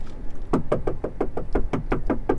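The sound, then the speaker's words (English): Rapid knocking on a bathroom door in a panic: a quick, evenly spaced series of about a dozen raps in a steady rhythm, fairly faint. “His wife knocked on the bathroom door in a panic.”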